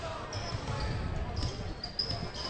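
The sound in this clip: A basketball is dribbled on a court during a game, with repeated low, thudding bounces under continuous crowd noise and voices.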